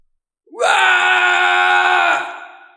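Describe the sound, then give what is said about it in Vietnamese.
A man cries out loudly in pain after being struck down in a fight: a drawn-out, strained wailing yell that holds steady for over a second before fading away. “Hắn kêu to một tiếng”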